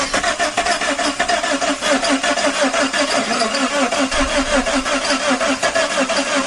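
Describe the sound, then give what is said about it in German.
A DeLorean car arriving after time travel, as a film sound effect: a loud, steady mechanical hum that pulses in a fast, even rhythm throughout, heard alone without talk. “Da kommt der DeLorean an. Richtig. Bei der Reise immer. Beim Ankommen hört er sich so an.”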